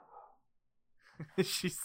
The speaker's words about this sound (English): I hear a doggo.